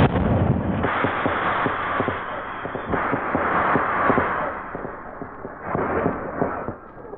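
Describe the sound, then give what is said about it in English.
Emergency rockets are set off, giving several loud bursts of booming, crackling noise that swell and fade one after another, with no talk. “Now, just one more thing to set off these emergency rockets.”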